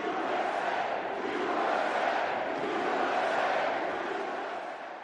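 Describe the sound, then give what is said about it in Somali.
A large crowd of supporters cheering and applauding in a basketball arena during a rally, a sustained, thick roar of voices and clapping that stays loud throughout and eases off slightly at the very end. “Waxaana mar walba oo uu saxiixo dekreeto gudaha garoonka isqabsanayay sacab iyo mashxarad.”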